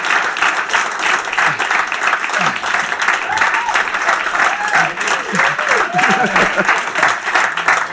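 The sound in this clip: Loud audience applause welcoming a guest onto a stage, dense and steady for the whole stretch, with a few cheering voices mixed into the clapping.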